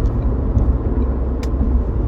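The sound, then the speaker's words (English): Steady low road rumble of a car being driven, heard from inside the vehicle, a continuous even drone with no distinct events and no voices. “So, looking at all of that, and as usual, I'm recording this while driving.”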